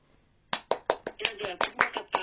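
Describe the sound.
Hands clap in applause for a participant after a scary story, a rapid, evenly paced run of sharp, crisp strikes that begins after a short quiet moment and carries on steadily to the end.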